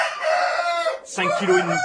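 A heavy fighting rooster weighing about 5.5 kg crows loudly, its harmonic call lasting nearly two seconds with a brief break in the middle.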